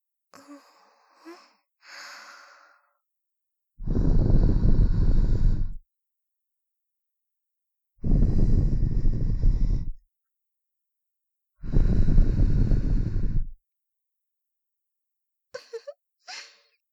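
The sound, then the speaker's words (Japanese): Soft breaths blown into the ear to finish an ear-cleaning session: three long, airy whooshes of about two seconds each, separated by silence, framed by faint, brief rustles at the start and end. “仕上げにお耳に息をふーってさせていただきます。”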